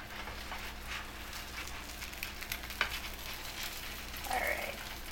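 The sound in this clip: Pancake batter sizzles in a hot frying pan at breakfast, a steady low crackle and patter that runs throughout, broken by one sharp clack partway through.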